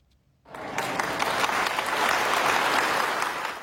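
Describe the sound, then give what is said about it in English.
Applause and cheering from friends, family and healthcare workers lining hospital halls as an injured police officer is wheeled out. Silence gives way to a sudden burst of dense, steady clapping and cheers that holds loud to the end. “Friends, family, and healthcare workers lined the halls and cheered as Joplin police officer Rick Hershey was wheeled out and then walked on his own.”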